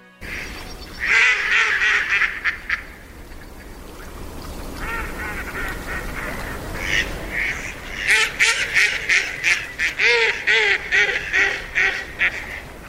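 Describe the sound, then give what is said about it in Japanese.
Mallard ducks call from a winter roosting flock of about 300 birds on a sunny, warm day. Many loud, rapid, laughing quacks come in clustered bursts over a steady background hiss. “まるでわーはっはっはっと高笑いしているような声、マガモです。”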